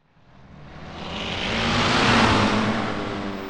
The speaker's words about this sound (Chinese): 一辆急速行驶的车辆突然出现在马路上